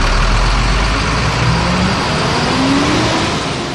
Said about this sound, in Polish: Jest to dymomierz DS2, który po prostu na biegu jałowym pojazd kilkukrotnie gazuje.